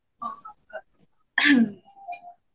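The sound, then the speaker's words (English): A woman coughing: one loud, harsh burst mid-clip, set among a few softer, shorter throat sounds before and after. “she's coughing again.”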